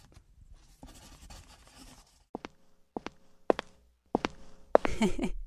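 A pen scratches across paper as someone signs an autograph for a fan's daughter. Faint scribbling gives way to a few sharp strokes and taps, and busier rustling follows at the end.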